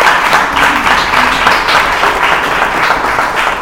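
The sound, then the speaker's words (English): Loud audience applause in a church service greets a visiting guest pastor as he comes up to speak, a dense, continuous patter of many hands clapping. “Let's give him a hand as he comes.”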